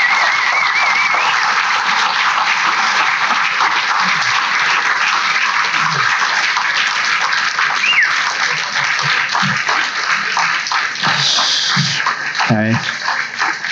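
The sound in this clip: Audience applause welcoming a family onto a stage: dense, continuous clapping that stays loud and steady throughout, with no clear pauses.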